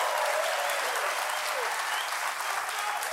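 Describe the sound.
Steady audience applause forms a dense, even wash of many hands clapping. It holds a constant loudness throughout with no pauses.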